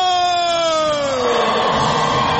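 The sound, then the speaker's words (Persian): Iranian women's futsal players cheering and celebrating after a victory, with loud sustained voices and a high vocal tone that slowly drifts lower in pitch over broad crowd noise. “این صدای هلهله و شادمانی بازیکنان فوتسال زن ایرانی است، زنانی که بر قله آسیا ایستادند.”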